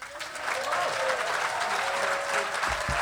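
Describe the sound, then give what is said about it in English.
An audience applauds to welcome a comedian onto the stage. Clapping swells within the first half second, then holds as a dense, sustained ovation until the end. “please welcome the man it's all occurred to, Richard Herring.”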